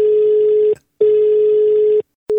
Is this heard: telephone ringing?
yes